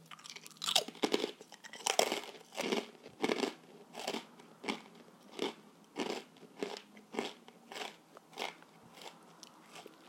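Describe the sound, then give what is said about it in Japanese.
Crisp crunching of a Japanese senbei rice cracker made with domestic rice and soy sauce. Many sharp bites and chews come in a steady, even rhythm, with no talk. “日本にいた時だから本当に1年半ぐらいぶりにせんべい食べたんじゃないかな”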